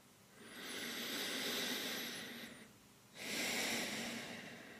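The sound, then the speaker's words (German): Deep breathing during a guided relaxation exercise: a long, airy breath lasting about two seconds, a brief pause, then a second strong breath that carries on to the end, both heard alone without talk. “nimm noch mal einen tiefen Atemzug”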